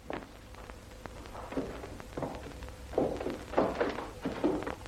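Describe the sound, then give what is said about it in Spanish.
Footsteps of a man walking down stairs in a 1970s western: many soft, low thuds in an uneven, steady rhythm, faint at first and growing somewhat louder toward the end. “sale de la habitación y comienza a bajar las escaleras”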